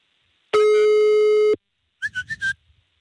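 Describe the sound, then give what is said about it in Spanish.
A telephone ringing tone sounds as a call is dialed to a radio contest listener: one steady, mid-pitched tone lasting about a second, followed after a pause by a short run of four quick, higher chirps. “Está marcando ya.”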